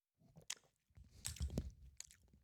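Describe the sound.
Lip smacking while tasting a beer close to a sour, with mandarin and grapefruit flavour: quiet, wet mouth smacks and clicks in a few bursts, with no talk.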